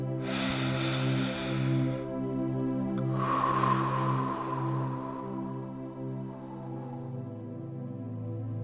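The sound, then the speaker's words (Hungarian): A big deep breath taken during a yoga pose: a long, airy inhale, a short pause, then a longer, softer exhale, heard over a steady, sustained drone. “Veszünk egy nagy levegőt.”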